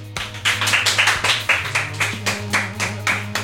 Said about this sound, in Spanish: Un aplauso, por favor, reportero.